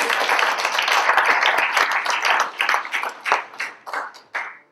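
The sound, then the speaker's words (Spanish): Congregation applause at a church service: dense clapping at first that thins into a few scattered, separate claps before stopping. “Denle un aplauso al Señor porque no quiero dormir.”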